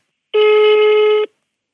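An outgoing telephone call rings as one steady, loud buzzing tone lasting about a second, then silence.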